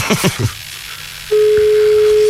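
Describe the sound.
A telephone tone marks a call being placed to a beauty salon: brief talk is followed by a steady, single-pitched tone held for about a second.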